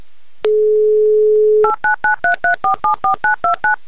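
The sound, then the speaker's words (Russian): A telephone number is dialed: a steady dial tone holds for about a second, then stops and gives way to a quick, evenly spaced string of many short keypad beeps at shifting pitches. “Ну а пока набираю ваш номер”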